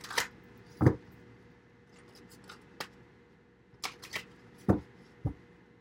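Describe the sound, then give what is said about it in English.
Cards from an oracle money deck are shuffled and one is drawn, giving a few sharp, dry snaps and taps spread unevenly across a quiet background. “I'm going to get one card from the um, Money Deck by Eugene Vinitsky.”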